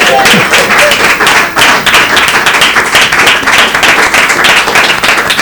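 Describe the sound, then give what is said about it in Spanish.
Loud audience applause at a presentation event, with many hands clapping in a thick, continuous roar that briefly dips early on and then carries on strongly to the end. “También está mi hermano Guillermo. Aplaudan a mi hermano Guillermo.”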